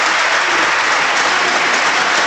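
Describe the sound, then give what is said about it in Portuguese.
A parliament chamber and its galleries give a standing ovation to the Captains of April. The applause is dense, loud and steady throughout, with no other sound rising above it. “De pé, também nas galerias, forte aplauso para os capitães de Abril.”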